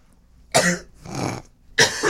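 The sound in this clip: Abrupt coughing from someone who has just inhaled a piece of dust: a few harsh, raspy coughs with a throaty clearing in between. The bursts are loud and separated by short silent pauses.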